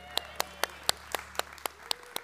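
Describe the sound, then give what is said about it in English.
Nine sharp, evenly spaced hand claps following a prayer, in a steady rhythm, fairly faint over a low hum. “Y'all, he had a long one today, so give him an extra applause.”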